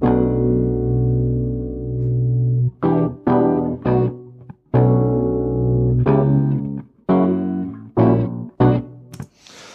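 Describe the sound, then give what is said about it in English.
Buzzy synth chords make up the first loop of a live electronic music session. A long held tone opens it, then choppy stabs start and cut off in a syncopated, accented rhythm. “So this is a session I will use for the presentation. It's, well, the first loop sounds like this.”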